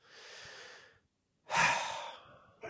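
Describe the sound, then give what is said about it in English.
A deep breath taken during a calm, guided moment of reflection: a long, soft, airy breath, a brief silence, then a louder and fuller breath with no talking. “Take a deep breath.”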